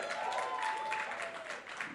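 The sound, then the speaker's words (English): A church audience at a Word of Life Fondren service applauds its guests, a dense, steady wash of clapping that holds evenly throughout. “Can we give it up for all of our guests?”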